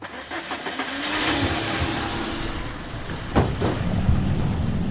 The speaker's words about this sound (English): We're driving through Nabatea now.